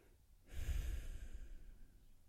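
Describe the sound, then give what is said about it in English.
One deep, slow breath drawn during a guided meditation session, heard as a soft, breathy rush that swells quickly and then fades gradually, faint and alone. “Take that big restarting breath.”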